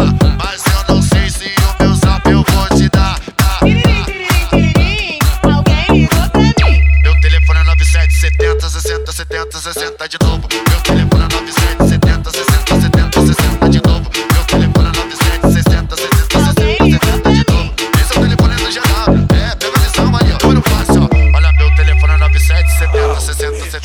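A telephone ringtone chimes twice within a loud, pounding music track, each time as a bright, steady tone that briefly stands out over deep bass.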